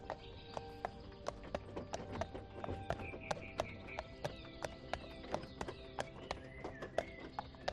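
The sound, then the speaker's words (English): Pony hooves clip-clop steadily as it pulls a carriage along a path among bluebells, many faint, evenly spaced hoofbeats in a relaxed, regular rhythm with no talk. “The sound of the carriage wheels and the pony's hooves is rhythmic, relaxing.”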